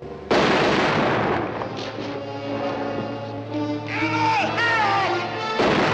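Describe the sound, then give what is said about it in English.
A woman fires her gun: a single loud, sharp shot bursts out at the start and rings on into a sustained, dense tonal wash that lasts to the end. “The posse, Johnny and the kid, can only watch in stunned silence as the women raise their guns. Emma fires, and Vienna falls back.”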